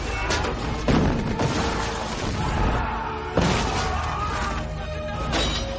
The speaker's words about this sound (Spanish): Las catapultas cristianas disparan. Impactan en la vanguardia sarracena y alcanzan alguna torre.